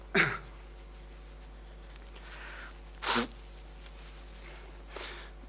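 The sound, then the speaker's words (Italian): Someone blows their nose in three short, noisy bursts spread a few seconds apart, the first two strong and the last fainter, with quiet background between them. “Scusatemi, devo soffiare il naso.”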